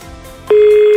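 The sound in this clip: A telephone ring tone on a call line, heard as a single steady mid-pitched tone that starts halfway through after faint background noise and holds loud and unbroken to the end.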